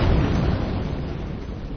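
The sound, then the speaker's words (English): A car bomb explodes less than a block away, heard as a loud sustained low rumbling roar that slowly decays across the whole clip, with no voices present. “This is the sound of a car bomb exploding less than a block away.”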